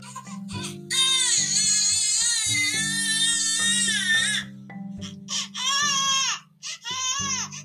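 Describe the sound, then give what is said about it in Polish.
A newborn baby girl cries in several long, high, wavering wails with short breaks between them, over soft, steady musical tones. “Płacz.”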